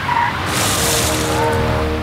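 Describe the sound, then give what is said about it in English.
A car's tires screech as it skids while being joyridden, a loud, sustained rough hiss with the engine's tone running beneath it for about two seconds. “went out again, joyriding the car, testing its limits and smashing the number plate.”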